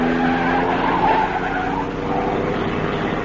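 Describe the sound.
A car skids around a corner during a chase. Its tires squeal continuously and loudly over the engine noise, holding steady throughout.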